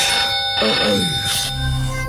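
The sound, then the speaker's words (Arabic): A telephone rings at night in a home, with bright, loud ringing bursts over a constant high tone. “التلفون بيرن”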